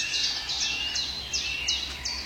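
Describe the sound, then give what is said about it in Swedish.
Birdsong from a blackcap, wood warblers and a chaffinch. Short high chirping phrases repeat about every half second, fairly faint over a quiet background. “Och man står i hackspetsen på den här svartättan igen. Och grönsångarna är väldigt påtagliga här nu. Bofinken har ju fått igång.”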